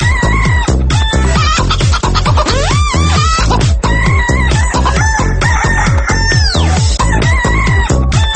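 Chickens at a zoo clucking rapidly and densely with a few rising rooster crows cutting through, loud and continuous throughout with a steady pulsing rhythm and no talk.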